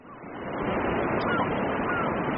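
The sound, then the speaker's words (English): Steady surf rushes off a giant sandbar jutting into the North Sea on the western coast of the Netherlands, where kite surfers ride the waves. A broad, continuous roar of breaking water swells up in the first moment, then holds level and loud. “On the western coast of the Netherlands, kite surfers ride the waves off a giant sandbar that juts deep into the North Sea.”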